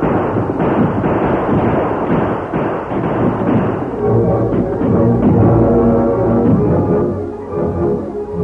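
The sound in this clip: Rifle gunfire in a battle as defenders on a ridge fire on an attacking outlaw gang riding out of the trees. Many dense, overlapping shots and thuds keep up a loud, continuous barrage throughout.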